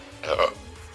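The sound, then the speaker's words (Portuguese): A single short burp from a man drinking cola, a brief, low, raspy belch that swells and fades within half a second against quiet background hiss. “Desculpa de arrotar de novo. Eu tô tomando coca.”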